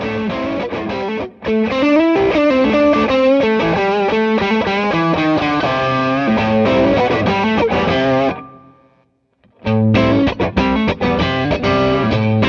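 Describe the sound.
Electric guitar overdriven through two Tube Screamer pedals, plus a plexi-style drive, playing loud, saturated chords and riffs, with a brief near-silent gap before the crunchy playing resumes.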